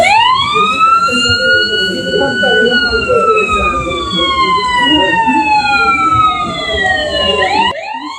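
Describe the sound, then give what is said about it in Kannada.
Emergency vehicle siren sounding after a large mock rescue drill: a long, loud wail with strong harmonics that rises slightly, then slowly falls in pitch over several seconds above steady background noise. “Complete operation ಮುಗಿದ ಮೇಲೆ ಮತ್ತೆ 2 ನಿಮಿಷ siren ಹಾಕಿ ಎಲ್ಲವೂ safe ಅಂತ ಸಾರಿದ್ರು.”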